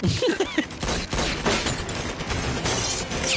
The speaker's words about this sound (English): Stop shooting at me.